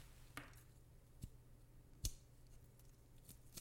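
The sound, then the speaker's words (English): A Calibre cigar cutter snips the twist off a cigar, giving a few crisp, sharp clicks spaced apart over near silence. “So we're going to use my Calibre cutter. And we're just going to cut just that twist off right there. Just like that.”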